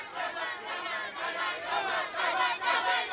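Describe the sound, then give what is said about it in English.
Local residents in the Arfak Mountains of West Papua greet a visiting president with a traditional dance, a dense, continuous mass of chanting and shouting voices that swells and pulses throughout. “As you can hear, he was welcomed, in fact, by a traditional dance and greeted by local residents in the Arfak Mountains in West Papua Province”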